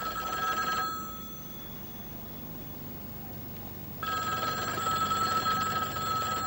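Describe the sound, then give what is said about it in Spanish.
A telephone rings in an empty, untidy flat: a bright electric bell rings briefly, falls silent for about three seconds, then rings again steadily until the end. “Está llamando a su casa, mira la hora con la esperanza de que Joanna haya vuelto, pero el piso está tal y como lo dejaron él y Billy.”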